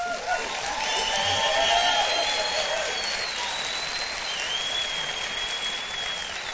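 An audience at a live Saturday-night Bible study broadcast bursts into warm, sustained applause welcoming listeners across the country, a dense, even wash of clapping that holds steady throughout.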